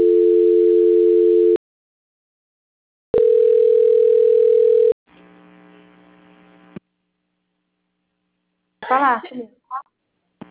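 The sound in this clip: Telephone line tones during a call transfer: two long, loud, steady tones separated by silence, then a quieter buzzing tone, followed after a pause by a brief voice.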